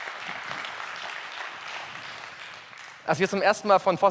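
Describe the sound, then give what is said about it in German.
An audience claps in a hall, a steady stretch of dense applause lasting about three seconds before it stops and a voice begins speaking. “ihr habt eben geklatscht, aber ich bitte euch nochmal zu klatschen”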